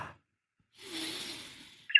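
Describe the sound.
A single soft, slow breath, drawn for about a second during a guided breathing exercise, faint and alone with no talk.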